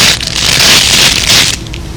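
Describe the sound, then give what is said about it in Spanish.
Eggshells cracking as ducklings hatch: a loud, dense crunching and crackling that runs for about a second and a half, then eases to a quieter rustle. “¡Ya! ¡Ya rompen el cascarón nuestros hijos!”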